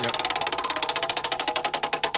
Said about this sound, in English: All right, I'm going to give the wheel a spin one more time.